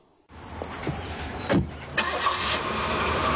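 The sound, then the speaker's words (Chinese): A car engine cranks and starts, then runs steadily at a moderate, even level. It belongs to a children's story in which Elliott and a mouse set off driving through the night. “艾略特说：“出发了！”艾略特和老鼠开车穿过了黑夜。”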